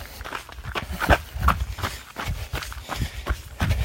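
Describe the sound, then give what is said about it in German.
Footsteps of people walking on: a steady series of soft, regular steps, each a short muffled tap, continuing throughout. “So, dann laufen wir wieder ein Stückchen.”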